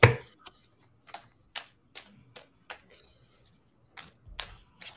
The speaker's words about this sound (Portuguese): peraí que eu tô embaralhando ainda